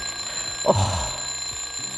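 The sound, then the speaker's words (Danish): An alarm clock rings with a steady, shrill tone that lasts the whole two seconds at an even level, and a brief swooping sound cuts in near the start. “Nej. Sluk. Ja, jeg slukker nu. Ej. Et vækkeur. Forfærdeligt.”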